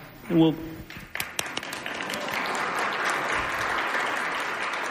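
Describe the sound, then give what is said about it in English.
Audience applause at a panel discussion. A brief voice comes first, then dense, steady clapping builds and holds to the end. “And feel free to clap.”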